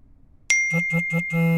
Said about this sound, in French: 4 heures du mat. Je reçois un SMS qui me réveille.